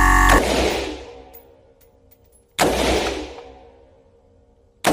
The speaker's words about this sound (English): Now those are single shots. If I wanted to fire this on full semi-automatic, all I do is keep firing.